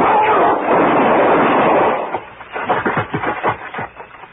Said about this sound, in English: Because now I'm going to kill you with your own gun.